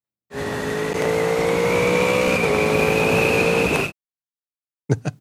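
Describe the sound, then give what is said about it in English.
A motorcycle with a quick shifter accelerating at wide-open throttle, its high engine whine climbing steadily with one abrupt gear change partway through, then cutting off; a couple of brief knocks follow. “But doesn't that quick shifter sound good? Yeah. One more.”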